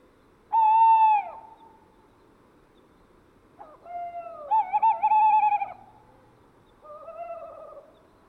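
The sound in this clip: A male tawny owl hoots during courtship with a female. A strong hoot comes first, then a long, wavering, quavering call, then a fainter final hoot, all over a quiet background.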